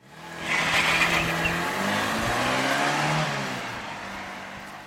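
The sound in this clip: A car engine starts and the car drives off: a low, rumbling drone with rising tones as it revs, holding steady for a few seconds before gradually fading toward the end.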